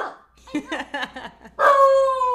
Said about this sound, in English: she's part beagle. She's part beagle. Oh my God, that's the cutest little howl.